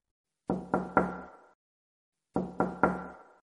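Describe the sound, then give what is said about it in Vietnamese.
Heavy, steady knocking on window glass comes in two separate sets of three evenly spaced, loud thuds, each set ringing briefly before silence, with nothing else heard. “kính cửa sổ đột nhiên vang lên tiếng gõ nặng nề, đều đặn.”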